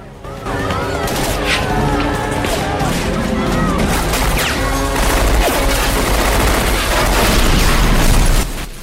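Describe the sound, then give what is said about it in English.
Gunfire from soldiers in a zombie attack scene: dense, sustained bursts of shots with heavy booms as a VW van blows up, all loud and continuous for the whole stretch, with voices mixed into the chaos. “Soldiers open fire, blowing up a VW van.”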